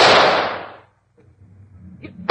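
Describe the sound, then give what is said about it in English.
A single gunshot fired at an escaped animal: one loud, sharp blast that decays over about a second, then a brief silence and some low rumbling noise. “Stand back, Watson. I'm going to shoot.”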